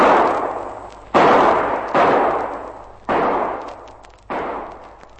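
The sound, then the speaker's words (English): Revolver shots are fired from behind a rock. Several sharp, loud bursts arrive in an uneven sequence, and each one cuts off into a long, noisy, decaying tail. “A bit far for a revolver, but here goes.”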